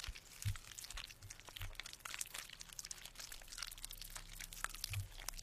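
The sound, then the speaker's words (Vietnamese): Wet chewing and crunching of food by unseen creatures on a dark dirt road, heard as a steady, faint stream of many small crinkly clicks and crackles with no voices. “Chết mẹ, đây là tiếng chúng nó đang nhai thức ăn đấy.”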